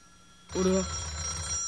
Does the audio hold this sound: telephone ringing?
yes